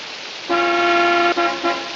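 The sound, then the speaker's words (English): A car horn is pressed outside a house at night in heavy rain. One loud, steady honk lasts nearly a second, then two shorter toots follow, all over a constant background hiss. “Marion returns to her car and presses the horn.”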